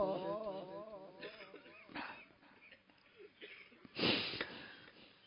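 Person weeping during a religious mourning recitation, starting with a wavering, sobbing wail, then sharp, wet sniffles, with a prominent sniff near the end.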